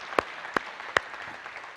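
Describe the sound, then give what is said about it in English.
Scattered hand claps greet two people being welcomed, with three sharp distinct claps standing out over a faint background and no sustained ovation. “So let's welcome them and give them a hand.”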